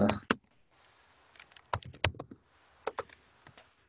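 Commands are typed on a computer keyboard in short bursts of crisp keystroke clicks, some sharper and louder than others, separated by brief quiet pauses.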